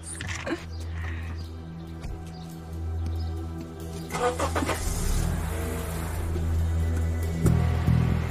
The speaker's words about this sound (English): drives through a busy roundabout.